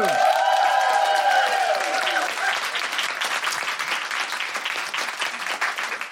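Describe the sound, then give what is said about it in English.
A live feminist book club comedy audience applauds and woohoos as a guest is introduced. Loud, dense clapping continues throughout, with bright swooping whoops at the start. “Put your hands together and make incredible Guilty Feminist Book Club woohooing noises for Eliana Ostro!”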